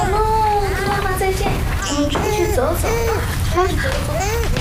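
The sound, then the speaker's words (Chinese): A baby cries in repeated wailing bursts at home, fussing and refusing to be soothed, while an adult talks gently over the crying. “我再哄呀，但他还是哭。可怜了，可怜了。行，我带你出去走走啊，乖，不哭了，不哭了。”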